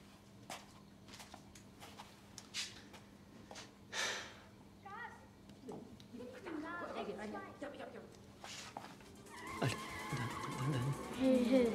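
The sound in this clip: Car engines rev and tires skid in a racing video game, with excited talk from the players running over the game sounds, which build louder toward the end.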